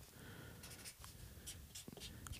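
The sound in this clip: A marker writes on a board in short, faint strokes that squeak and scratch in an irregular rhythm.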